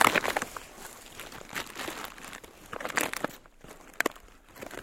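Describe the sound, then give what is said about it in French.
Dry corn chips crunch and crinkle as they are bitten and handled, faint crackly bursts scattered across the stretch with quiet gaps between. “Je les goûte pour savoir si ça peut allumer le feu par contre, tu vois. Ouais, ça va, elles sont assez sèches.”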